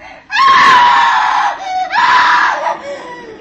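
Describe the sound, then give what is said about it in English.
A woman screams twice through a stormy night, long piercing high-pitched cries, each loud and sustained for over a second, with a short break between them and no talking. “I knew it was my sister who had screamed.”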